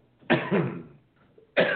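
Coughing from a tickle in the throat: two quick, harsh coughs close together, a short pause, then another cough, all loud and with no talk around them.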